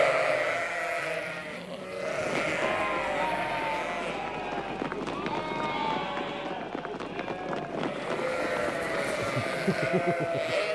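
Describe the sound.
Sheep and lambs bleating in a farm barn at lambing time, with many overlapping calls of varied pitch over rustling movement, and a person talking among the animals.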